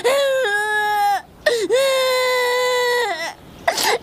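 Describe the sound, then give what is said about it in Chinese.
A child cries in long, drawn-out wails, with two sustained high-pitched sobs separated by a short gasp, then the abrupt start of a third cry. “别哭了”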